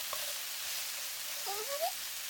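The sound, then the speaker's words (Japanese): Bacon and natto fry in a pan over too-high heat, giving a steady, even sizzling hiss throughout, with a short rising squeal breaking through near the end. “火が強すぎちゃったかな。ベーコンと、納豆を入れて。”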